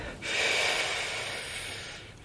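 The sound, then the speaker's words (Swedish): One long, deep breath drawn in during a slow, counted breathing exercise. The airy, loud inhale swells quickly, then holds and tapers off gradually over about two seconds, heard alone. “Andas in.”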